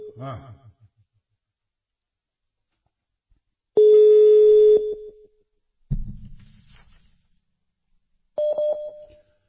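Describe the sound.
Phone call tones while a call is being placed: a sustained electronic tone lasting about a second, then shorter tones separated by silence, with a brief voice at the start.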